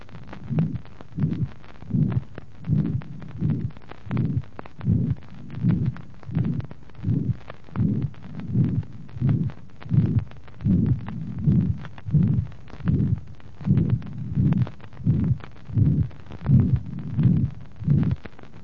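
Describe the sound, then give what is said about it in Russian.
A heart heard through a stethoscope, with a loud, long systolic murmur at the left second to third intercostal space and an accentuated second sound over the pulmonary artery, beats in a steady rhythm across many cycles. “аускультативным признаком этого порока является интенсивный продолжительный систолический шум во втором-третьем межреберье слева. Второй тон на легочной артерии усилен. Прослушайте запись.”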